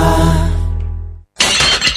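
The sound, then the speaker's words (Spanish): A ceramic office mug breaks with a sharp, crashing shatter. A sustained low tone fades out first, then a brief silence comes before the crash. “¿Se rompió tu taza y ahora tenés que usar la más fea de la oficina?”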